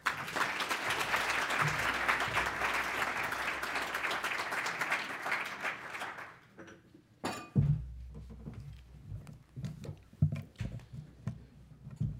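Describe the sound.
Audience applause at a City Club of Cleveland forum welcoming a speaker to the stage: steady, dense clapping for about six seconds, then fading into quieter scattered sounds and movement.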